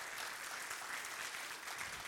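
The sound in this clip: Church audience applauding to welcome guests, a soft, steady wash of many hands clapping that continues evenly throughout without any voices.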